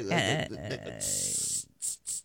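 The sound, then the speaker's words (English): A spray bottle spraying a cleaning product makes sharp hissing bursts after a brief spoken phrase: one longer spray followed by two short quick ones. “So the product, you just spray the product, and the argument is over with”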